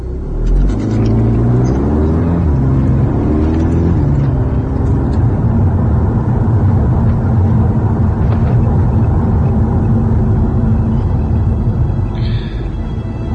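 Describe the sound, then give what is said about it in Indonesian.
Car engine accelerating on a quiet, foggy road: a loud, steady low rumble whose pitch climbs over the first few seconds, then holds as a continuous heavy drone with no voices. “Aku menancap gas mobilku di jalan yang sepi dan berkabut tebal ketika itu.”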